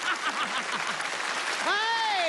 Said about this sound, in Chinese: 朋友们，给他鼓掌，我看他怎么办。